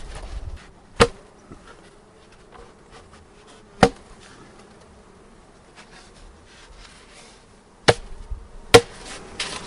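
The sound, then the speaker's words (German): Bees humming inside a beehive lid: a steady, mid-pitched drone that runs throughout, broken by a few sharp knocks. “So viele Bienen da im Deckel sind, ist die Gefahr, dass man welche erdrückt, besonders groß.”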